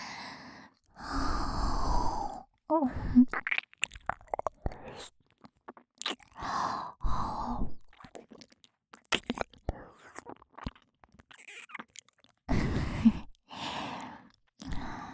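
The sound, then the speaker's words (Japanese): Wet mouth sounds of an earlobe being nibbled in ASMR: soft smacks, clicks and chewing noises come in irregular bursts, mixed with breathy sighs and faint whispering between them. “耳たぶ食べてんの。”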